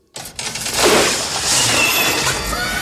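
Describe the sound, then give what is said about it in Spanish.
A wall breaking apart after a spring trap is pulled in a temple: a sudden loud crash bursts in, then a sustained crumbling, rushing clatter of debris carries on steadily to the end. “La pared se rompió y salen dos cadáveres putrefactos que habían sido emparedados.”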